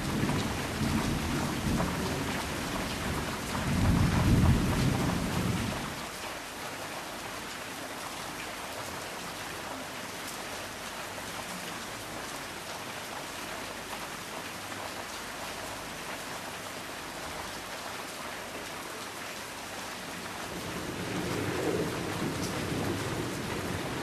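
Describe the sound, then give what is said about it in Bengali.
A heavy downpour of rain with thunder keeps up a dense, steady hiss throughout. Deep rumbles of thunder swell near the start and again near the end. “আস্তে আস্তে মুষলধারে বৃষ্টি শুরু হয়েছে।”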